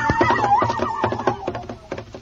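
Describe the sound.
A horse whinnies in a loud, wavering neigh with a falling cry trailing off, while irregular sharp knocks sound through the whole clip.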